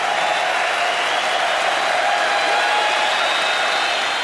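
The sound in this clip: Sustained applause from a large audience in California welcoming Vietnam veterans. Dense, steady clapping with crowd noise beneath it keeps an even loudness from start to finish.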